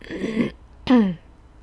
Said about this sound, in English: I cleaned with so much bleach today, so I'm like, I've gotta clear my throat and stuff.